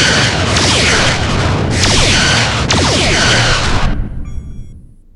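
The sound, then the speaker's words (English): Science-fiction photon torpedo firing effect: three loud, broad whooshing blasts in quick succession, each starting sharply, with the sound fading out over the final second. “Alexa, fire photon torpedoes. Firing photon torpedoes.”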